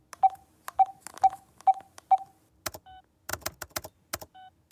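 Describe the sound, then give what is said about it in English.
Electronic beeps and clicks come from pressing shuffle on an iPod: five evenly spaced beeps, then a flurry of quick clicks with two more isolated beeps. “I hang out here, play songs out of my iPod. I hit shuffle.”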